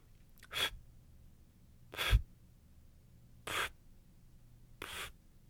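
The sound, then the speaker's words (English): Four short, sharp puffs of breath blown out on a single breath to extinguish candles, evenly spaced and breathy, with quiet pauses between them and no talk. “I'm going to go all the way through and see how many candles I can blow out on that one breath. I'm blowing a little burst out.”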